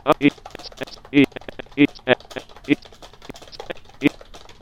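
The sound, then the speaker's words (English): Typing on a computer keyboard as a short email message is written, with light rapid key clicks throughout and several short tonal bursts recurring between them. “Now we are in the body of the message, and I will just type a quick couple of sentences to myself.”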